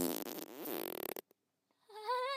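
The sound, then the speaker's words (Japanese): A long, rasping fart with a fluttering, buzzy texture, then a pause and a fainter, higher wavering squeak at the end. “このままおならだけを送り込み続けるの、悪臭にまみれながら窒息死しちゃうわね。”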